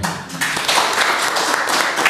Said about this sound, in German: Wow, also allein das ist ja schon Applaus wert, wow.